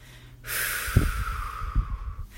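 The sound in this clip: A deep exhale during a guided breathing exercise: a single long, airy rush of breath that lasts nearly two seconds, steady and breathy, with no talk over it.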